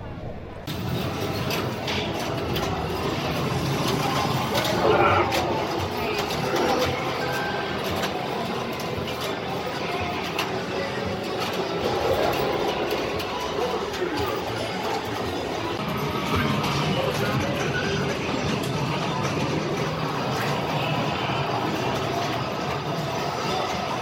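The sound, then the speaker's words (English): Vintage pinball machines, some dating back to the 1930s and 40s, play together at the Pinball Hall of Fame in a loud, continuous din of clacking and clattering, with voices murmuring in the background. “So we're going to do a little ASMR here so you can hear the sounds of all of the pinball machines here at the Pinball Hall of Fame.”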